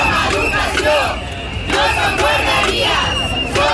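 Striking nursery school workers chant in the streets of Catalonia. Loud rhythmic shouts from a crowd come in a few repeated bursts over constant crowd noise.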